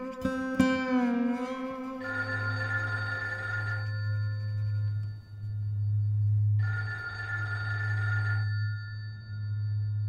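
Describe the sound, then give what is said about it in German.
A telephone rings twice. Each ring is a sustained electronic trill lasting almost two seconds, over a steady low hum, and the two rings are separated by a few seconds of quiet. “Ah, Telefon.”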